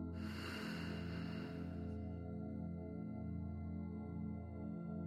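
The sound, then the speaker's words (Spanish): A slow breath drawn in, heard as a soft, airy hiss over the first two seconds, then fading as a low, sustained harmonic drone with gentle pulses carries on alone. “Respira. Inhala. Y exhala.”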